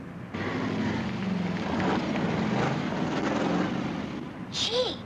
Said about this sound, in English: It looks like some sort of a race. It is. It's a drag race.